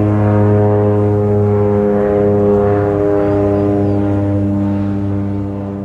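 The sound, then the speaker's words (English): Seaplane (float plane) propeller engine drones steadily, a loud, low, harmonic hum that holds throughout and eases slightly at the end, with faint bird chirps barely audible underneath. “There was a little bit of a bird in the background, but I was trying to capture the seaplane”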